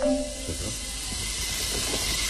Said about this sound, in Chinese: 砂锅给你蒸到了。 听到没有？